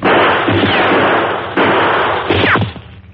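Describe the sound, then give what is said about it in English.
An exchange of gunshots among boulders and trees: a few loud, sharp cracks, each followed by a decaying rumble and brief falling whines, and then the sound drops away at the end. “After an exchange of shots, there was silence.”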